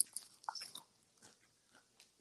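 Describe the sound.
Biting and chewing barbecue potato chips: faint crunchy bites followed by a few soft, scattered chewing sounds, with no talk.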